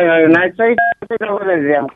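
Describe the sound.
A few brief telephone keypad dialing tones cut in while a person keeps talking. One clear beep is followed by a couple of shorter ones, all of them partly masked by the voice.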